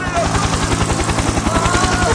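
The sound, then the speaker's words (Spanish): A yellow government helicopter coming down, its rotor a loud, steady, rapid thumping pulse over a dense roar of engine noise throughout. “Va a bajar de nuevo. Otra vez con el helicóptero, sí, amarillo, que dice gobierno hacia Buenos Aires.”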